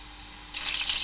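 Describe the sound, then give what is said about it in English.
Meatballs go into hot olive oil in a frying pan on a hob. A soft background hiss jumps abruptly to a loud, steady, crackling sizzle about halfway through. “Now, I've got here a frying pan and I'm just going to pop some olive oil into that. And light the hob. Now, I'm going to pop these in and start to fry them.”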